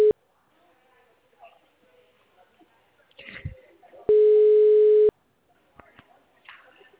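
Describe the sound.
Ringback tone of an outgoing phone call: one steady, mid-pitched buzzy tone lasting about a second, preceded by the clipped end of an earlier tone, with faint scattered background sounds in the gaps.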